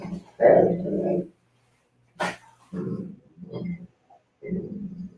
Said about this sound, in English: Yeah, he's a good dog. He's a big dog. He's a good dog. Good dog for sure. Wants attention.